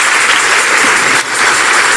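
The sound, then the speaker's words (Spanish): Applause from an audience during a sermon: a loud, dense burst of clapping that briefly dips about halfway through before resuming at full strength. “Si ese es el aplauso, déselo mejor al Señor, déselo mejor al Señor.”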